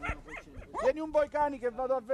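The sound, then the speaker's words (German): Small shepherd's dogs yap at a herd, a rapid run of high, whiny yips and short barks that repeat in quick bursts. “Pfeif mal deine Hunde zurück, ruft der Veterinär dem Hirten zu. Endlich haben sich die kleinen Kläffer beruhigt und Angelucci”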